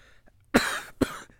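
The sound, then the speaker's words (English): A man coughs twice, harsh and loud, with a brief gap between the two bursts; the second cough is shorter than the first. “Sorry, I'm coughing and sniffling.”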